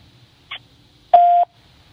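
Answering machine beep before a message is left: a short soft click, then one clear, steady electronic tone lasting about a third of a second, sounding alone and fairly loud.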